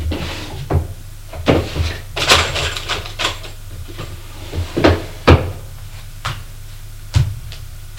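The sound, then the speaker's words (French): A sideboard drawer is opened to take out a key, giving an irregular series of wooden knocks, clunks and rattles, some sharp and loud, with quieter handling noises between. “va prendre la clé dans le tiroir du buffet”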